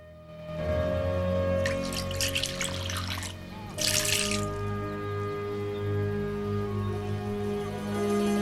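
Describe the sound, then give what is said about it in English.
Water poured from a jug into a washbowl in a house, heard as two splashing, trickling bursts, the first longer, then a shorter second, over a steady humming background. “Pouring water from the jug into the bowl, she notices that it's nearly empty.”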